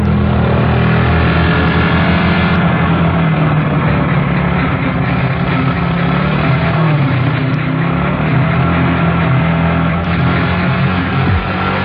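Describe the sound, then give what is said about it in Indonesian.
A motorbike engine revs hard as the rider twists the throttle to accelerate, a loud, dense, unbroken roar that holds steady throughout with a low rumbling drone underneath. “Begitu kataku sambil lanjut menancap gas motor.”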